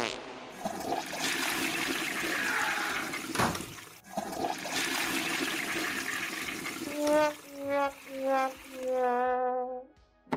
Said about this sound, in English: Oh, I hear him peeing. I hear your pee.